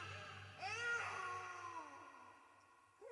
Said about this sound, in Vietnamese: Đứa bé nó cứ khóc. Tôi lúc này cũng đã bị tiếng khóc làm cho hoảng loạn